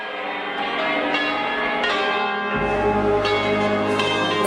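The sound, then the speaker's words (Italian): Church bells ring loudly and continuously at Loreto as the papal train arrives in 1962. Several strikes blend into a dense, sustained metallic ringing, and a low rumble joins partway through. “Le campane ora squillano più che mai.”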